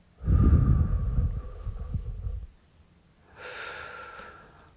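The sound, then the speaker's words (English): Deep breathing during a guided relaxation exercise done lying on the back: one long, rough, airy inhale, a short pause, then a softer, hissing exhale. “start by taking a deep breath. Breathe in and breathe out.”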